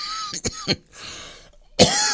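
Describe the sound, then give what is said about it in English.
Coughing and throat clearing, several harsh bursts separated by short pauses, ending in one loud cough, with no talk over them. “You see, you don't normally get coughing live on the wireless.”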